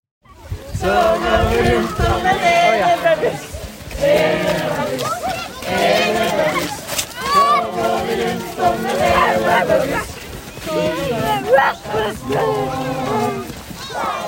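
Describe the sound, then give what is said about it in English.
Crowd voices at a Norwegian-style community Christmas tree lighting, a loud continuous mix of overlapping chatter and raised calls from many people, swelling and dipping. “What you are hearing is the sounds of our recent julegrans tenning, which is a Norwegian word I had a long time mastering, and that is the community Christmas tree lighting.”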